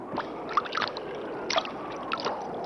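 Water rushing fast like a small river, a continuous hissing flow broken by a few splashy, gurgling bursts.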